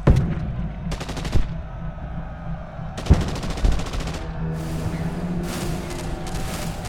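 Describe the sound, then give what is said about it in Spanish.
Gunfire in a battle: several loud bursts of rapid shots come in separate volleys over a steady low droning background, with no voices. “Los disparos esta vez no hicieron blanco”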